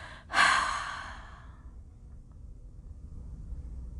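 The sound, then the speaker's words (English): A single deep breath, drawn in through the nose and released during a guided meditation, comes as a soft breathy rush that peaks early and fades over about a second into near silence. “take one deep breath in through the nose and then drop the breath”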